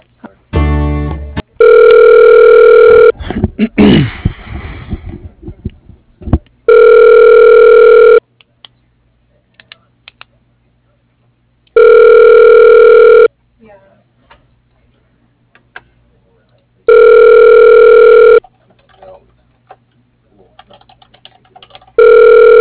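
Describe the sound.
A telephone ringback tone plays while a call is forwarded to voicemail: four long, steady, even-pitched tone bursts repeat at regular intervals with quiet gaps between them. Noisy handling sounds come early on.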